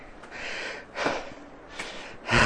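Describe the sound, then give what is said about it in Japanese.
Heavy panting from someone out of breath after climbing uphill: a few rough, noisy breaths with quieter gaps between, the last one loudest. “息が切れた。ああ、ジャンルのここ息切れたでしょうね。疲れるよ、これは。”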